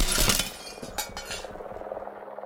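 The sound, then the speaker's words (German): Glass shatters as the tip of a ladder is rammed through a window and smashes the frame. A loud crash at the start is followed by scattered clinking and tinkling of debris that trails off. “Die Spitze einer Leiter war durchs Fenster gerammt worden und hatte den Rahmen zertrümmert.”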